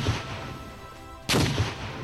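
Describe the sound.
A single cannon shot in a zombie video game: a sudden, loud, broad boom bursts in partway through and rumbles on with a sustained roaring tail over steady background noise.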